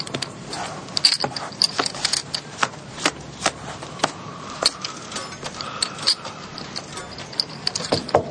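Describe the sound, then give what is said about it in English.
Playing cards dealt for a poker game: many quick, sharp card flicks and snaps in an irregular rhythm, with soft shuffling texture between them. “So sure you want to do that. Deal the cards.”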